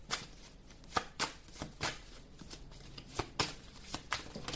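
Playing cards being dealt one after another: many quiet, papery snaps and slides of cards at an irregular pace, soft and close.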